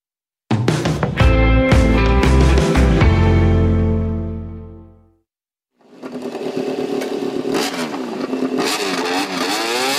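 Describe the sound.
A car engine revving and pulling away, heard in the second half as a loud, steady roar with wavering pitch, after an earlier sustained tonal sound fades to a brief silence.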